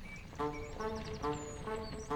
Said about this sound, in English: Why, it's a bright yellow stagecoach pulled by a galloping old steed wearing a straw hat with a daisy on the brim.